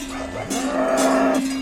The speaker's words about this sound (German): Wir haben einen Brunnentrag von 2000 Liter gehen da rein. Das ist wichtig, wenn so grosse Herde ist, was sie saufen können.